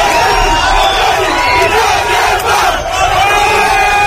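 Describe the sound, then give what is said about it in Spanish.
Crowd of local residents loudly cheering and shouting as the border fence between Gibraltar and the Spanish mainland is torn down, a dense continuous roar of voices throughout. “Sonido de cómo celebraban vecinos de esa zona la caída de la verja que durante 117 años ha separado el Peñón y la península.”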